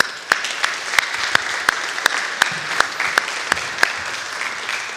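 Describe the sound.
An audience applauds to welcome a guest speaker, a reverend, with steady clapping and a few sharper individual claps standing out above the crowd, no voices heard.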